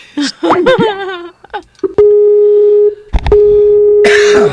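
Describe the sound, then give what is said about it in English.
A Skype call tone sounds as two long, steady electronic tones of similar pitch, each close to a second long, following brief talk and a cough-like noise at the start. “That would be Skype calling for those of you wondering what that sound is.”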